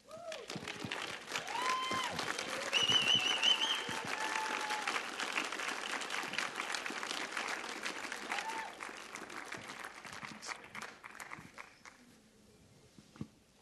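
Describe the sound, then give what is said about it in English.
An audience applauds at a Sunday church service to welcome two guests, dense, sustained clapping that swells early, holds steady, then thins and fades toward the end. “So would you please stand and help welcome Jamey and Nicole VanGelder.”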